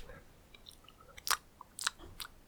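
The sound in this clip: Crisp chewing as someone tastes food, a few sharp crunches and bites at irregular intervals, faint and without any talk.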